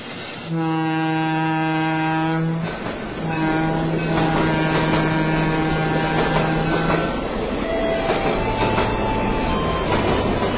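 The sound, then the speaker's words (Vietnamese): A Saigon–Hanoi passenger train arrives at Nha Trang station, with loud, sustained tonal blasts or squeals over steady rumbling rail noise that continues throughout. “Hôm 30 Tết, sớm mơi, xe lửa Sài Gòn Hà Nội ra tới Nha Trang.”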